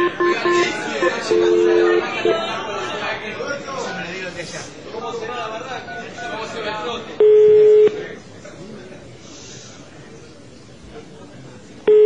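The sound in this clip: A telephone number is dialed as a few short electronic keypad beeps, including one longer and louder tone near the end, set among busy, muffled background sound.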